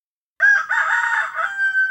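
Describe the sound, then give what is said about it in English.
A single loud rooster crow bursts out of silence, a drawn-out, strained cock-a-doodle-doo rich in harmonics. It holds for about a second and a half before cutting off. “Kiddos, do you know what animal makes that sound? He makes it very early in the morning. Do you think it's a rooster?”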